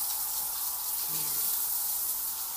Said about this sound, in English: Oh my gosh, I didn't even turn it all the way on. I was just washing it with cold water after waiting for this.